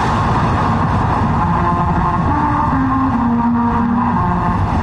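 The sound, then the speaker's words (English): Car tires rolling over musical rumble strips on a road in Auburn, Alabama, play the opening of Auburn's fight song as a droning buzz under engine noise, its pitch stepping through a short series of notes. “Well, what you just heard are the first seven notes of Auburn's fight song.”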